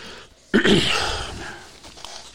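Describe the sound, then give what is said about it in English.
Throat clearing: one rough, harsh burst of breath and voice starts abruptly after a short quiet moment. It then fades gradually over about a second and a half. “Cannot get my throat cleared.”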